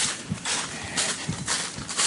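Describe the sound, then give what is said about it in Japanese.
Footsteps crunching on dry fallen leaves as one person walks alone around a pond. The steps come as a steady series of short rustling crunches, with no talk. “三好池池一周がですね4分の3周ぐらいのこれ枯葉枯葉の上を歩くという臨場感たっぷりのちょっとあざとい、ー、ポッドキャスターがここに一人歩いております”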